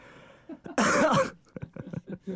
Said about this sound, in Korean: 이게 너무 당황스러워서 기침이 다 나네요.